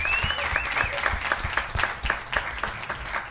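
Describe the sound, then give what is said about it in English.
An audience applauding a guest: brisk, even clapping with crisp, regular claps running throughout, moderately loud and steady. “Thank you very much. J-Wise. How about a hand for J-Wise there?”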